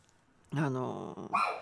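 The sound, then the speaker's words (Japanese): A dog barks at a neighbour's departing guests in a hallway: one long, tonal, strained bark followed after a brief break by a shorter, sharper bark, both loud and clear. “うちの犬が吠えてるのはですね、今のお隣様のですね、ゲストがお帰りになるので、”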